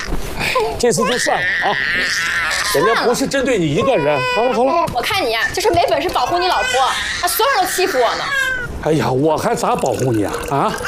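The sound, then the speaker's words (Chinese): A baby cries continuously in wailing, rising-and-falling bursts, mixed with loud adult voices talking and scolding over it. “哭什么哭？别哭了！”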